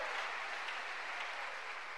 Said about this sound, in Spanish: ¿Cuánto le dan un aplauso a esa misericordia de Dios?